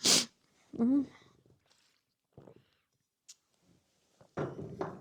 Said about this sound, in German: Oh, ich habe das Gefühl, ich muss gleich niesen. Entschuldigung.